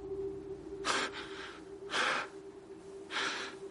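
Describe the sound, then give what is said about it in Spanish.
A general breathes heavily and agitatedly: three loud, rasping breaths about a second apart, each swelling and fading, over a steady low hum. “En el presente el general respira agitado.”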